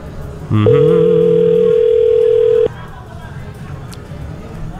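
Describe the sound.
A telephone call's ringing tone sounds as one steady, mid-pitched beep lasting about two seconds, over faint background murmur.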